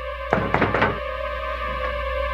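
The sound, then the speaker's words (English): A police officer pounds on a door in a quick burst of several heavy, thumping knocks, and then a steady low hum continues alone. “And she gets a knock at the door. Now, I wouldn't say this is a normal knock, but this is our chief police, our lieutenant character again, mm-hmm. our cop character. He is pounding on the door.”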